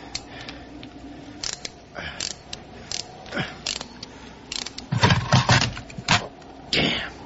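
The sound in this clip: Ratchet wrench clicking as it works on a car hose clamp on a freezing morning: short bursts of sharp mechanical ratcheting clicks, growing louder and denser toward the end.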